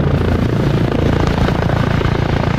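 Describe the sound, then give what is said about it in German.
A Eurocopter EC 635 military helicopter of the Swiss Air Force takes off at a festival in Schaffhausen, its loud rotor beating in a fast, steady chop over a dense engine roar throughout. “Kurz hat es auf der Schaffhauser Breite tunnert, wo der Eurocopter EC-635 von der Schweizer Luftwaffe gestartet ist.”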